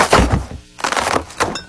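A gift box being crushed and torn open gives a few loud, crackling crunches of cardboard and paper in quick irregular bursts, with a short lull between them.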